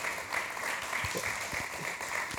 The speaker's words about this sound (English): Give my man a big hand clap this morning.